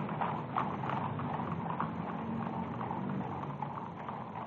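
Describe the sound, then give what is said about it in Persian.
Hooves of imperial guard cavalry horses clatter along on parade behind the Shah, a dense, continuous mass of overlapping hoofbeats with steady background noise and no clear individual steps. “اسواران گارد شاهنشاهی در پشت سر ملوکانه در حال حرکت هستند.”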